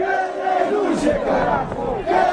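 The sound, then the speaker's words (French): Crowd of marchers in La Paz, Bolivia, protesting against the government's neoliberal policies, many voices shouting and chanting together in loud, overlapping cries that swell and ease over a couple of seconds. “Hier, une marche est arrivée dans la capitale pour s'opposer aux politiques néolibérales du gouvernement et avec dans la foule de nombreux partisans de l'ancien président Evo Morales.”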